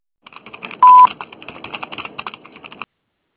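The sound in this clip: A short, loud, steady beep of about a quarter second, like a voicemail tone after a recorded greeting, sounds amid a continuous run of light clicking and tapping resembling telephone keypad presses or typing.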